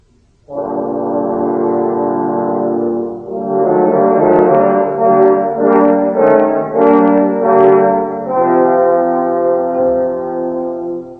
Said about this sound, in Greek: Τρία κόρνα παίζουν τον γκρίζο Λύκο.